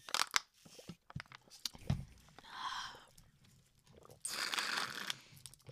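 Air is sucked through the straw of an empty cherry Capri-Sun pouch, making rasping slurps and crinkling foil in uneven bursts, faint overall.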